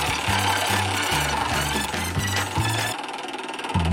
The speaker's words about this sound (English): Time once again to give that wheel a spin to figure out what we're going to play for today's game.